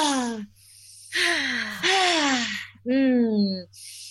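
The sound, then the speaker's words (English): Deep breaths taken together as a group: a few loud, voiced sighing exhales, each falling in pitch, with short pauses between them and a hiss of air at the end. “Oh, let's everyone just take a deep breath.”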